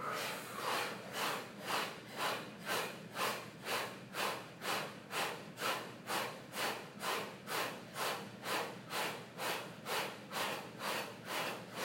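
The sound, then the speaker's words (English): Forceful, rapid exhales from a breath-of-fire breathing exercise, repeated in a steady, quick rhythm throughout as many sharp breathy bursts of even loudness with no talking. “Every exhale forceful, every inhale automatic. Let all the air up. Inhale, breathe in.”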